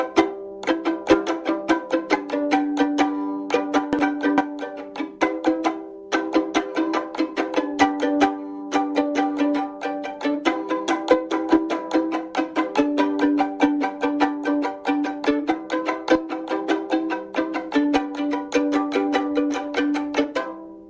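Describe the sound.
Violin strings strummed with the nails of four fingers on the way down and the thumb on the way up, producing a steady, rhythmic run of bright plucked chords that continues alone throughout with a few brief pauses.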